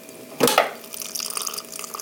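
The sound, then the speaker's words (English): Hot water pouring from the hot side of a water cooler into a coffee press: a brief splash, then a light, uneven trickle of running water. “I'm putting this on the hot water side, and I'm pushing the button to take it off safety. And voila, getting hot water”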